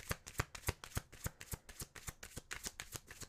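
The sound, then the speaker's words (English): Tarot cards from a new deck being shuffled, a quick, steady run of many soft, crisp riffling snaps at low volume, with no voices. “Let's get into the tarot cards.”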